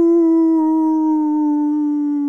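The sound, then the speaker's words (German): A person imitates a wolf howl with a single long, steady vocal tone held for about two seconds. It is loud, sustained and heard alone. “Jaule 30 Sekunden lang wie ein Wolf, ohne zu lachen.”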